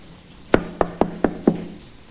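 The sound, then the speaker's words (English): Five firm knocks on a closed bedroom door come in an even, steady rhythm, each a sharp, clear rap standing alone against a quiet background. “She rests her head and shoulder against it and knocks.”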